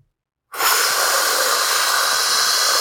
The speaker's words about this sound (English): Inhale. You're releasing all the N2O.